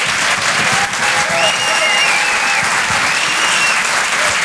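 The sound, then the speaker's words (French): A theatre audience applauds a comedian with dense, steady clapping that holds a constant loudness throughout, with a few high whistles rising above the noise. “Je vous demande de l'encourager, faites un maximum de bruit s'il vous plaît, pour Guillaume Fosco.”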